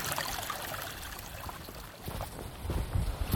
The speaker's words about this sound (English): It's like a little mini creek. This little creek here is made a trough for itself, and it's only about 2 feet wide. It's like a little mini river.